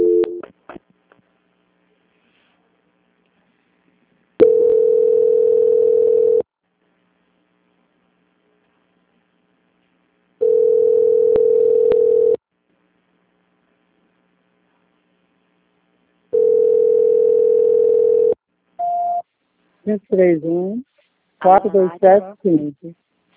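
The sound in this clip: Telephone line tone during a call transfer: three long, steady mid-pitched beeps, each about two seconds, separated by even pauses, followed briefly by a voice at the end.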